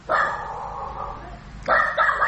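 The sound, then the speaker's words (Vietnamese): A dog barks during a charity giveaway of instant noodles and mooncakes, producing two long, drawn-out, wavering calls of steady mid pitch, the second starting right as the first ends and rising a little louder, with no talk over them. “tự nhiên đây nói cái chó sủa.”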